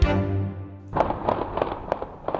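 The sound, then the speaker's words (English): Recording of multiple gunshots fired in Trenton, linked to ghost guns: a rapid series of sharp, cracking bangs at uneven intervals, preceded by a steady, droning tone that cuts off just before the first shot. “Investigators played audio of multiple shots fired in Trenton, a so-called numerous discharge event”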